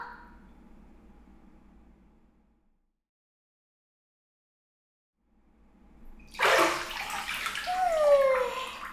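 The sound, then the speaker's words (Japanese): Water rushes from a shower rinsing someone in a bathroom before a bath, breaking in loud and steady after a near-silent stretch and continuing as a full splashing gush to the end. “ここまでやったならシャワーで流してからお風呂入ってよ。”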